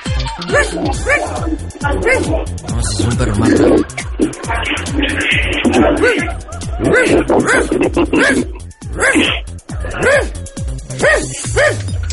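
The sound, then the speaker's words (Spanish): A dog yips and barks in short, high-pitched bursts, mixed with whimpering sounds, while people talk throughout. “¿Le gusta ese perro?”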